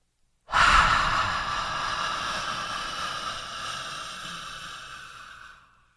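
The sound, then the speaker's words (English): A person imitates an exaggerated breath: one long, loud, breathy exhale that starts abruptly and slowly fades over about five seconds, alone with no talk. “And the most exaggerated breath I've ever heard was right between us. And it was like,”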